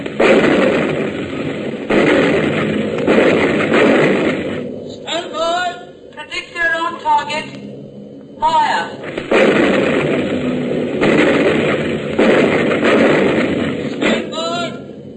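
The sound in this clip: Guns of a wartime battery opening fire on command, long sustained bursts of heavy gunfire broken midway by a short pause where a voice speaks, then the firing resumes just as loud.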